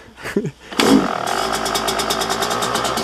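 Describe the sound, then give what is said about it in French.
A 2016 Yamaha 125cc two-stroke racing motorcycle with an aftermarket exhaust and modified intake reed valves: a brief clatter, then the engine bursts into a loud, steady running note with a rapid, pulsing rasp. “C'est une Yamaha 125 cm3 de temps et elle est de cette année, de 2016.”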